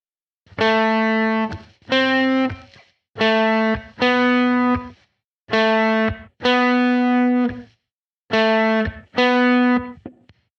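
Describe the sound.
Electric guitar played on the fourth string at the ninth fret through distortion effects, eight loud, sustained, buzzy notes of the same pitch in four pairs, with short silences between the pairs.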